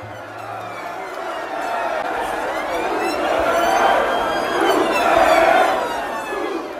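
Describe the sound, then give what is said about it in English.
A crowd of young revellers fills a Liverpool city-centre street as the bars close before new COVID restrictions. Many voices shout and chant in a dense, continuous roar that swells louder through the middle and toward the end. “That's the sound of young people in the centre of the northern English city of Liverpool last month, as the bars of the COVID-hit city closed for the final time before a new round of restrictions”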